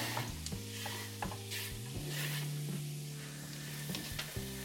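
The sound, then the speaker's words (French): Carrots and small onions sweating in a pan give a quiet, steady sizzle, broken by a few soft scrapes and clinks of stirring. “Alors je mets mes carottes dans, mes petits oignons à suer.”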